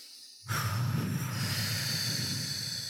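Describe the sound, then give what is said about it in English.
A deep breath taken during a calming exercise comes as an airy hiss that starts abruptly and holds steady and even, with no talk. “So when you put your hands here, we're going to take a deep breath.”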